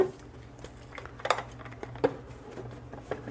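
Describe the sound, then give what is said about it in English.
Metal measuring spoons clink while being handled during baking with sugar, eggs and vanilla, giving a few light, quiet, scattered clinks and taps. “Get out some measuring utensils here. Okay, well, where's the 1 teaspoon? There it is.”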